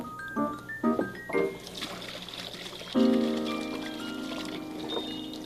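Running water as items are washed again under a tap: a few short splashy, squeaky bursts, then a steady stream that pours and trickles continuously.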